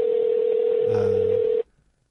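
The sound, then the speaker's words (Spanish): Telephone call being dialed on speakerphone: a single steady, mid-pitched electronic tone that holds for about a second and a half, then cuts off abruptly to silence. “Vamos a llamar a Rose, a ver. ¿Y si lo pongo en speaker?”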